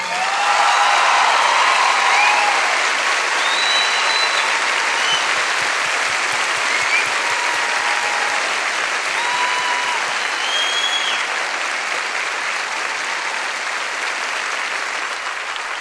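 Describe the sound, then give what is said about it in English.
Sustained audience applause welcoming violinist Taro Hakase in Las Vegas: a dense, loud, even wash of clapping that keeps going from start to finish with no voice rising above it. “Ladies and gentlemen, would you help me welcome Mr. Taro Hakase.”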